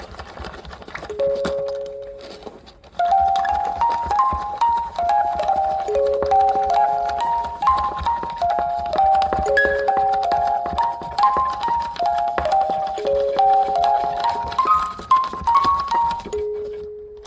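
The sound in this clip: A music box plays a quick melody of many bright, plucked notes in a steady rhythm, ringing on its own without any talk.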